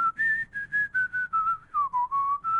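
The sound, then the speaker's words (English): A person whistles a Disney song melody: clear, pure sustained notes in a steady phrased rhythm. The pitch climbs, eases down to a low point, then rises again, with no other sound around it. “I was actually in the studio and I started doing whistle covers of like Disney classics.”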